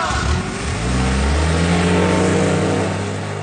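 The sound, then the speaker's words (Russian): A car engine roars loudly as it speeds away, its pitch climbing over the first second and a half, then holding a strong, steady roar to the end. “Машина внезапно взревела и, подняв тучу пыли, унеслась.”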